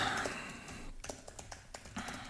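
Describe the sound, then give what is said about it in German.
Quiet tapping of someone typing a WhatsApp message on a phone: a run of light, irregular clicks over a low, hissy background, with no speech. “Ich google nicht, ich schreibe kurz eine WhatsApp ins, in die Firma.”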